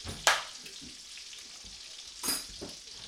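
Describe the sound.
Sweet Italian sausages and cheddar bratwursts sizzle as they cook, with two sharp bursts of loud hissing as links are added, a quieter steady fry between them, and no talk.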